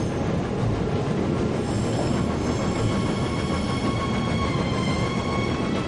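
A passenger train travels along the rails with a steady, continuous rumble and a faint tonal hum and whine layered above it. The sound stays even throughout, with no talking.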